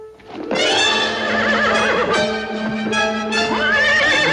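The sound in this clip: A horse rears up on a street and lets out loud, shrill whinnies, a long harmonic neigh with a wavering pitch that carries through almost the whole clip and ends on a high, squealing note.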